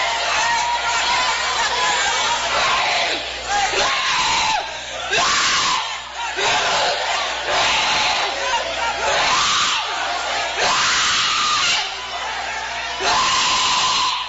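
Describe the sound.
A church audience shouting and screaming during a fervent service, a dense, loud wall of voices that keeps surging in repeated bursts, with a voice speaking over the crowd.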